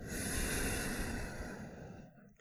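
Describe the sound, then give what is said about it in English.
Slow breathing, heard as one long, soft, airy breath that holds steady and then fades away near the end. “Let your breathing match the rhythm of my words.”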